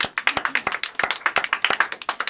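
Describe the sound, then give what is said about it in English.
Audience clapping fills a radio studio after a musical theater performance, with many brisk, sharp claps in a dense, steady patter. “Yes, let's clap.”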